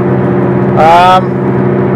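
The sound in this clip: A car driving along, heard as a steady low engine drone that holds constant throughout.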